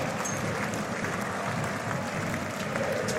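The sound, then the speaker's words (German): Tired but encouraging applause from football fans at the end of a 1:1 second-division match, a steady, even wash of clapping and crowd noise with no single claps standing out. “Unter dem etwas müden, aber dann doch aufmunternden Applaus der Fans,”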